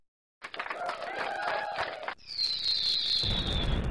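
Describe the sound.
Fireworks sound effect played at a watch party for a baseball game: a busy, crackling opening gives way to a high, slightly falling whistle, followed by a low rumbling burst that runs to the end.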